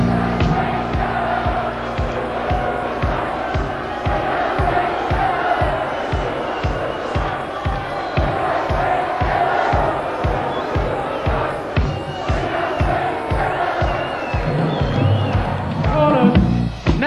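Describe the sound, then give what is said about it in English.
A crowd of fans, the reds, sings together in a steady chant over a regular pounding beat of many low thumps that keeps an even rhythm from start to finish. “So this time we're going to have the reds singing now, so come on, let's hear you.”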